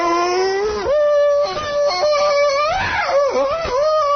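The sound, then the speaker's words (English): A man's voice imitates a jungle hero's yell to his mate and a bull gorilla's mating roar. The loud, wavering cry swoops up and down in pitch and runs continuously for about four seconds. “Tarzan's fantastic scream to his mate. Or the raging, roaring, mating cry of a bull gorilla in the deeps of the Orinoco jungle.”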